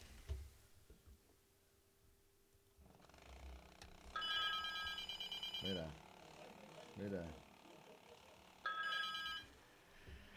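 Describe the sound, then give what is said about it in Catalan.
Telephone ringing: two bursts of a bright, high, trilling ring, each lasting over a second, separated by a quieter stretch with brief voice-like sounds. “I és que aquest telèfon no para, eh?”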